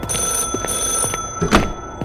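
A telephone bell rings steadily with a bright, high metallic trill, while a few dull thumps and knocks sound alongside it.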